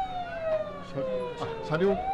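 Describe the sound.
An emergency vehicle's siren as it arrives at a landslide vehicle-rescue drill: a sustained wail that slowly falls in pitch, fairly faint and running under people talking.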